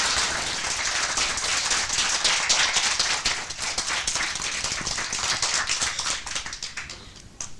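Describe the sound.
A group of children from a swimming club clapping together, a loud, dense patter of many hands that holds steady for several seconds and then thins toward the end.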